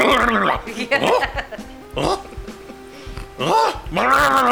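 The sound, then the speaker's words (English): A person imitates a dog barking, producing a few voiced, yelping bark sounds separated by short gaps, rough and fairly loud, alone without other talk. “like a dog might initially help, but then they just sit back and they're like, bark, bark, bark, bark.”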